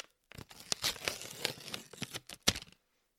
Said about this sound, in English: That is the sound of me opening up one of my Stay Fresh cookie packages.